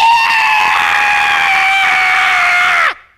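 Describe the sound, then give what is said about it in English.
A person imitates a woman screaming with one loud, high, sustained shriek held steady for nearly three seconds, then dropping sharply in pitch as it cuts off abruptly. “She did it louder, but I don't want to break your eardrums here this morning. She would just scream at the top of her lungs.”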